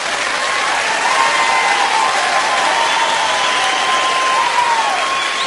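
An audience claps in honour of a doctor, a loud, sustained burst of applause that keeps an even intensity throughout.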